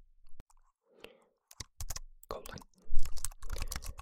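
Keys on an electric typewriter keyboard are struck in irregular clacks. A few sparse, sharp taps give way to a denser, louder flurry of keystrokes, with short silent gaps between them.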